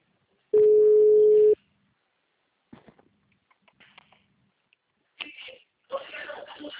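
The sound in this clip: A telephone ringing tone as a call is placed: one loud, steady single-pitch tone lasting about a second, then near silence with faint clicks and rustles, and brief talk near the end.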